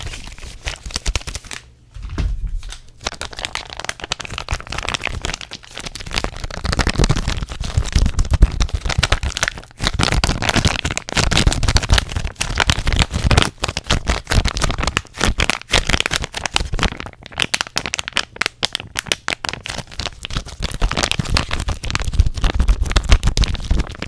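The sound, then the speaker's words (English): Face mask packaging handled as an intense, fast ASMR trigger: busy, continuous crinkling and crackling with many rapid taps and scratches, loud and close throughout. “one of my favorite triggers. Face masks.”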